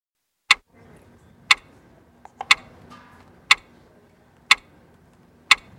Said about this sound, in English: Do you hear that? Do you hear that clock? That is the sound of time ticking on a trade deal as the March 1st deadline approaches and as the S&P 500 inches back to new highs.